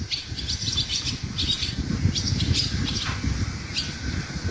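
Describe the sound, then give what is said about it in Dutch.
Young barn swallows practising flight over a polder near Amstelveen before migrating south: many quick, high twittering chirps in scattered bursts over a steady low background rumble. “Eva Maria nam in de Bovenkerkenpolder onder Amstelveen de jonge boerenzwaluwen op, die vliegles krijgen alvorens naar het zuiden te vertrekken.”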